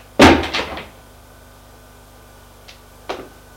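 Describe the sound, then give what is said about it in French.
A door under the stairs is handled and closed: a loud clattering burst of several quick knocks at the start, a faint tick later, then one sharper knock near the end. “Elle a ouvert la porte, éclaire, ferme la porte”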